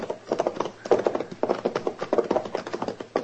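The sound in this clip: Clip-clop of a horse pulling a wagon: many steady, rhythmic hoofbeats tapping out an even trotting pattern, moderately loud, with no voices.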